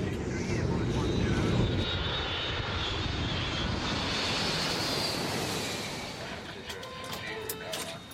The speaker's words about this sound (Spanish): A las 9.03 p.m., el vuelo 648 hacia Egipto está listo para el despegue.